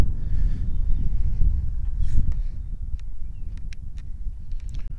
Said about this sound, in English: Here comes some wind.